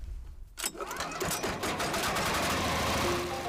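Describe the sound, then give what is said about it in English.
A grinder reducing prosopis tree into powdered animal feed: a loud, continuous rattling mechanical clatter that starts abruptly after a short quieter lead-in and keeps grinding steadily. “After collecting the prosopis, the villagers feed it into the grinder. The result? Nourishing powdered food for the animals.”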